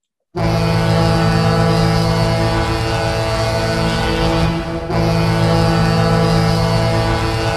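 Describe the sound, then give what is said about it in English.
A Seattle NHL team's goal horn, modeled on the local ferry horns, blasts a deep, loud, sustained harmonic tone that holds steady for the whole stretch, with only a brief dip partway through. “that goal horn is fantastic because it emulates the sound of the ferries that you hear out here in the Seattle area.”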